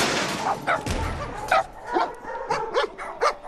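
Dogs barking in a pound in a film soundtrack: many sharp barks and high yips come in an irregular series, loud against a quiet background.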